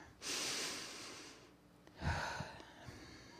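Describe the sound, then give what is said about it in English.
A slow, deep breath taken during a guided mindfulness exercise: a long, airy inhale lasting over a second, then a brief pause and a stronger, breathy exhale, with no talking. “Just so let's just take a deep breath.”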